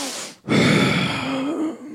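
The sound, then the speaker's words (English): A voice imitates a sharp, deep intake of breath: after a brief pause, a loud, sustained, breathy gasp runs on for over a second. “Angela took a real deep breath, like,”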